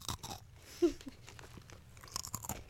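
Crunching and chewing on thin pretzel crackers: a steady run of many small, crisp, dry crunches, with one sharper bite standing out early, quiet and with no talk.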